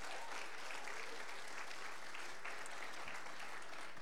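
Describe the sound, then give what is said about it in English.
Applause from an audience welcoming a guest preacher before his message, dense steady clapping that holds at an even level for the whole stretch with no talk over it. “Let's give him a hand. He's our brother.”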